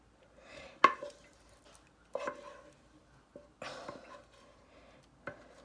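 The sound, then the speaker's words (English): Batter dropping into a pan and pushed along with a wooden spoon: a few faint, soft plops and scraping knocks, spaced irregularly with quiet gaps between them. “I grab the pot and I let the batter drop into my pan. And now I'm pushing it out with the wooden spoon. See, you can hear it dropping.”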